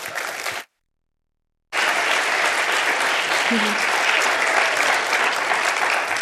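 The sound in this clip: Church audience applauding to welcome a children's pastor to the front: after a short burst of clapping and about a second of silence, loud, dense applause rises and holds steady and unbroken to the end.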